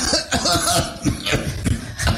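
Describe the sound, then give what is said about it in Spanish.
Small, light coughs from a person, several short breathy bursts in an uneven rhythm with a faint chuckling quality, alone without speech. “te dieron como que ganas de una tosecita”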